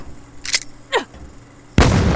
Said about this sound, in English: Ah, fucking flashbang! Shit! Flashbang grenade!